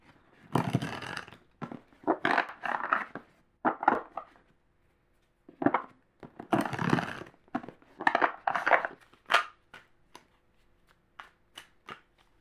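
Tarot cards being shuffled in a series of quick, soft riffling bursts with brief pauses between them, heard alone and fairly quiet, ending in a few sharper, thinner flicks.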